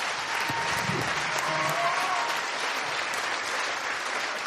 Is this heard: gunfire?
no